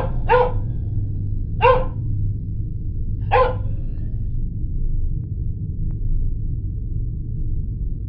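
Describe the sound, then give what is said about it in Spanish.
A dog barks outside: three sharp, separate barks spaced a second or more apart, followed by a quiet stretch. A steady low hum continues underneath. “Un perro empezó a ladrar afuera, seguido de un silencio total.”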